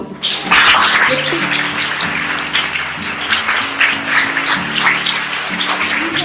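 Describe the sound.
Church audience clapping hands loudly in praise, a dense, uneven patter with brief louder surges that starts sharply and continues for about six seconds.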